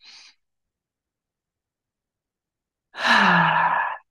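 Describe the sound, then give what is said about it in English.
A deep breath during a guided grounding meditation. A brief soft breath sound is followed by a long silence, then a long, full, slightly voiced exhale through the mouth that sounds like a heavy sigh. “I want you to take a big, deep breath in through your nose and out through your mouth.”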